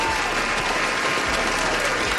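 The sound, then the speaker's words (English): An audience applauds, a dense and even wash of many hands clapping that holds at steady loudness throughout, with no voices standing out. “Give yourself a pat on the back and give yourself a round of applause.”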